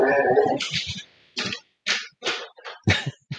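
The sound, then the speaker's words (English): A dog, a collie and golden retriever mix, barks at something moving in a backyard, a series of short, rough, muffled barks in uneven bursts separated by brief silences. “That was just my dog. He saw something running through the backyard and.”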